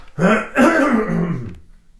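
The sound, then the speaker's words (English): A person clears their throat in two loud, raspy, voiced bursts, with the second one longer and trailing off into a low rumble. It is heard alone, with no other talk. “I must clear my throat for this.”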